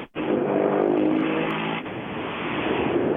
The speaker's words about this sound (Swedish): Ja, det kommer en bil där, det kommer en bil där borta.